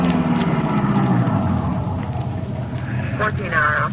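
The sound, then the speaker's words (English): A car drives a couple of blocks through a neighborhood at night toward an all-night gas station. A steady, low engine rumble fills the whole clip. “Then we drove down a couple of blocks to an all-night gas station.”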